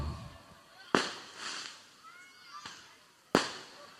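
Firecrackers going off: a few sharp, sudden bangs, two of them loud and cracking, with a softer pop between and a hissy background in the gaps.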